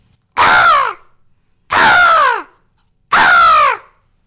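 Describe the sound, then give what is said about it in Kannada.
A person imitates a house crow with three loud, harsh caws spaced evenly apart, each call nasal and raspy with its pitch sliding downward at the end. “ನಮ್ಮ ಅಮ್ಮ ಯಾವ ಪಕ್ಷಿ ಮಾಡ್ಬೇಕು ಅಂತ ಹೇಳ್ತಾರೆ, ಅದನ್ನ ಮಾಡ್ತೀನಿ. ಹೇಳಿ. ಆಮೇಲೆ you can search the birds from this book, give me common once. House crow.”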